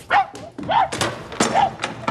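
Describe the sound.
A tracking dog used for following a laid scent gives a few short, sharp barks and yelps in quick, uneven succession, moderately loud.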